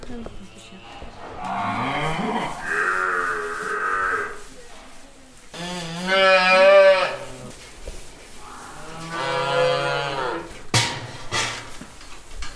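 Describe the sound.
Water buffaloes mooing on a farm at milking time, with several long, loud, drawn-out harmonic moos following one another.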